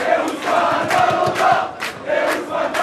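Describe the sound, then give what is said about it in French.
Football supporters chanting and shouting at a bar terrace in a small Paris street during a penalty shootout, a loud continuous crowd roar that swells in rhythmic bursts. “Entendez le chant des supporters de cette petite rue Raymond Losserand dans le 14e arrondissement. On est comme au stade.”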